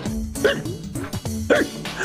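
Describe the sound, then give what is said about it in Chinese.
A zebra coughing after choking on a drink, voiced by a person as a few harsh, throaty coughs and splutters in irregular bursts. “斑马坐下来，喝了几口，忍不住咳了起来，又不小心被呛到。”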